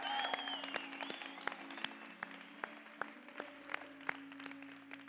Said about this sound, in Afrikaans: Kom ons cheer.